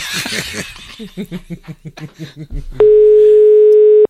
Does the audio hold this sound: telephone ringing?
yes